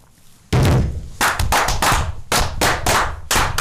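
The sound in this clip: A volley of gunfire fired on command: a run of loud, sharp, booming bangs with long ringing tails, coming in an uneven rhythm that keeps the sound dense and heavy throughout, with no voices heard.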